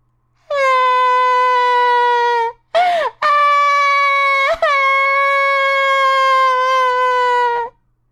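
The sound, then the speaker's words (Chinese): A young witch in a children's story cries loudly, a voice performing long, sustained nasal wails interrupted by a sharp gasping sob, then a second drawn-out howl with a brief catch midway before it stops. “呀，是一个小女巫，她怎么哭了？”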